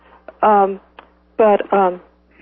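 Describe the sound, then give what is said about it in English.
A mobile phone ringing during a meeting: bright, buzzy ringtone bursts, one alone and then a quick pair, each under half a second, with faint clicks between them. “excuse me, my phone is going off.”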